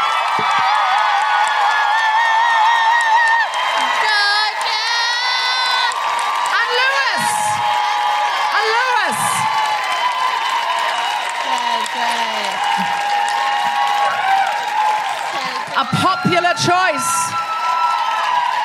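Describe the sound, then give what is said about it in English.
A live audience claps and woohoos for a performer, with sustained applause threaded with many high, swooping whoops and cheers that rise and fall throughout. “Could you please put your hands together and make incredible woohooing noises for Tolu Mackay?”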